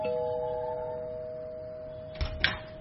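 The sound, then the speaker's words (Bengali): A home's calling bell rings with a sustained, steady electronic tone that slowly fades, followed near the end by two sharp clicks. “Calling bell বাজাতেই Mithu দরজা খুলে দিল।”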